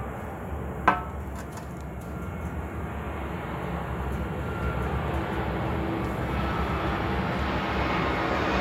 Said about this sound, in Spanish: que pase el avión, que ahí viene.